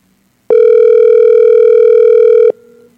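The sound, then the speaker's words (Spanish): Telephone tone signalling that the called line is busy on another call: one loud, steady, unbroken tone lasting about two seconds, followed by a fainter tone that trails off. No voices are heard. “No, parece que está en otra llamada. Se escucha otra llamadita, ¿no? Está en otra llamada.”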